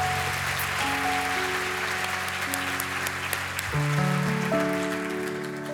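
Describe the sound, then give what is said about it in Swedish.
Audience applause at a live show: dense, sustained clapping that keeps an even loudness, with held instrumental tones sounding underneath and shifting in pitch partway through. “Stor applåd.”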